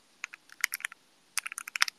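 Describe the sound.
Typing on a computer keyboard: many quick, light keystrokes in two bursts separated by a short pause, faint and with no talk.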